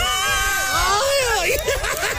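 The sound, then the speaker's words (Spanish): A woman lets out a traditional Mexican grito, a loud, high, warbling yell whose pitch wavers and climbs, over a background of crowd noise. “Échese su grito mexicano. Una, dos, tres.”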